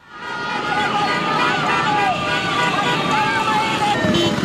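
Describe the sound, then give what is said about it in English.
Demonstrators in dozens of motorbikes and cars, waving giant flags and banners at an opposition protest in Caracas, Venezuela, make a dense, unbroken din of engines and crowd voices, with horn-like tones threading through the noise. “that's the sound of dozens of motorbikes and cars full of demonstrators waving giant flags and banners in support of Ms. Machado.”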